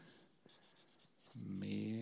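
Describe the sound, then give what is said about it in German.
Scratchy strokes of writing on a board, a few short faint bursts in quick succession, after which a voice begins speaking. “Schreiben wir hier unten hin.”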